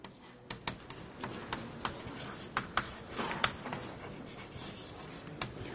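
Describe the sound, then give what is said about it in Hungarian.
Chalk writes on a board, heard as faint scratching broken by many irregular sharp taps as strokes hit the surface, quiet throughout with no voices. “Talán még ide írom ezt, hát ha el tudják még olvasni.”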